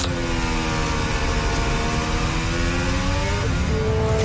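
Racing car engine rumbling over kerbstones on a qualifying lap, a loud, steady, buzzing drone with a sustained pitch that drops briefly near the end.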